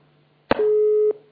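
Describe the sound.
Telephone busy tone after a dropped call: a short click followed by a single steady, mid-pitched electronic beep lasting about half a second, then quiet, over a faint low hum.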